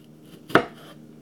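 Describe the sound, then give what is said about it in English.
One sharp knife chop cuts through tomatoes on a board in a kitchen in the morning, a single brief, faint thud-and-click against quiet background noise. “Right now, I'm chopping down the tomatoes. It's in the morning right now. It's about 7 something. I'm in the kitchen.”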